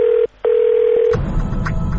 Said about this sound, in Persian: Beep, beep, beep.